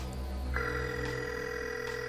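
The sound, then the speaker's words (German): A mobile phone call rings out on the line: after a brief pause, a steady electronic tone starts and holds unbroken to the end, faint over a low background hum. “Er wartete ungeduldig. Doch der Anführer der drei Fragezeichen nahm den Anruf nicht entgegen.”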